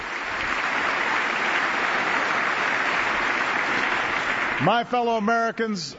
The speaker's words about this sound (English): The applause has gone on now for more than a minute for this Army Ranger.